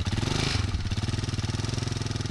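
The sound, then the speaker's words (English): A motorcycle engine runs as a couple mount it to ride off and tend their grazing cashmere goats, giving a loud, low, rapid chugging pulse that holds steady throughout. “gets on the back of her husband's motorcycle as they prepare to drive off to tend their grazing animals”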